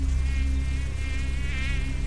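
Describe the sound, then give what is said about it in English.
Large blood-sucking insects buzz in the summer heat of a marshy green zone, a continuous wavering whine of wingbeats over a low rumble that sounds steady and close throughout. No voices are heard. “blood-sucking insects are waiting for you in this great heat of summer.”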